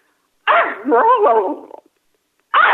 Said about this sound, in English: he does a dog bark.